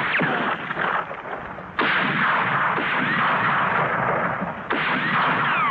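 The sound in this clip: Gunfire as men shoot at a fleeing man in darkness: a dense, continuous noisy crackle of shots, with sharp renewed bursts surging in partway through, loud and without voices.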